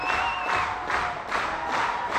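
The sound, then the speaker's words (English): A standing audience claps along at the request of a performer, with crowd noise and a little cheering; the clapping falls into a regular rhythm of repeated bursts, fairly loud and continuous. “Would you help us out for about half a minute? Just stand up and clap your hands.”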